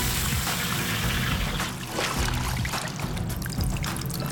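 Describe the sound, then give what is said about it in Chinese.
Green tea juice poured into boiling oil in a wok, giving a steady, continuous rushing pour with no clear breaks throughout. “金井绿茶的提炼颇为复杂，干锅炒香茶叶，打汁，清油烧开，倒入茶叶汁，”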